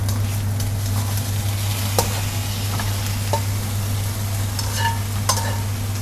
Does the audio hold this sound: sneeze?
no

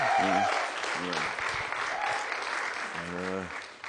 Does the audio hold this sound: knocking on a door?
no

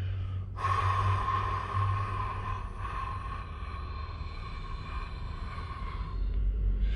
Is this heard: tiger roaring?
no

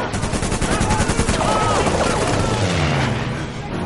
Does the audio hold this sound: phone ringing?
no

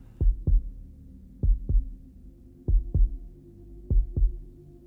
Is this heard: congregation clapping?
no

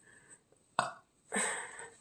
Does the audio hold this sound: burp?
yes

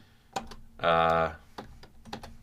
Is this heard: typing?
yes

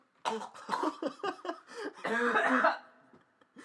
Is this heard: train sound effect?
no

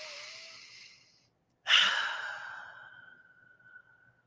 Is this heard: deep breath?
yes

